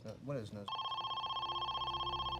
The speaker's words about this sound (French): Vers 10 heures, soit plus de 2 heures après l'enlèvement de la petite Amy, le téléphone sonna enfin.